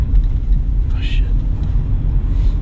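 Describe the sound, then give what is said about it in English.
Steady low engine and road rumble from a car driving on a racetrack, a dense, unbroken drone that holds at an even loudness throughout. “hold on, we're on the racetrack, guys. We're on the racetrack. Stand by.”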